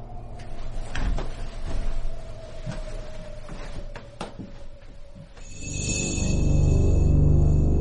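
A door in a house's upstairs landing corridor is opened: several sharp clicks and knocks, then a louder, sustained low grinding creak through the final seconds.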